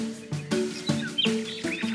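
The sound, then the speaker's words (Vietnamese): Small birds chirping, a few quick, bright tweets in close succession over soft, steady tones. “Mười. Có mười chú chim.”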